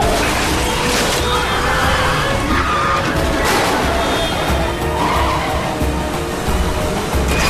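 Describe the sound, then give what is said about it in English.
Car chase from a Bourne film, two cars colliding door to door as a police cruiser spins out and is shoved along a barrier: a continuous loud wash of roaring engines, skidding tires and crunching impacts. “The two cars go door to door as they try to take each other out. The cruiser gets spun around, mounts a concrete barrier, and gets pushed towards stationary traffic.”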